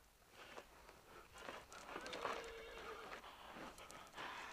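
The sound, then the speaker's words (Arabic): A horse whinnies, a fairly quiet, drawn-out neigh rising out of soft rustling and shuffling noises that continue around it. “صهيل الحصان ينبئ بقدوم أحد.”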